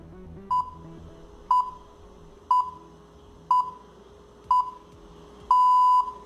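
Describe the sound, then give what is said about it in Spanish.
Radio New Zealand shortwave signal: six pure tone pips at one-second intervals, five short and a longer final one, over faint static hiss. “Los invito a escuchar la manera en que suena Radio Nueva Zelandia. Lo hace de esta manera.”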